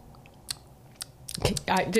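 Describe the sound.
A voice imitates a bat's hunting call aimed at moths. A few sparse clicks speed up into a rapid clicking burst, which ends in a short voiced sound.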